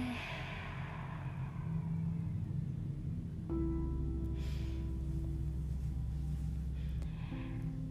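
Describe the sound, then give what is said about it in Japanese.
Deep breath in followed by a long exhale during a yoga breathing exercise, soft and airy, with a steady low tone sounding beneath it. “最後吸って大きく吐いて”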